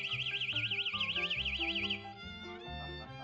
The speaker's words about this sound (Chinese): 这个是最新型的防狼警报器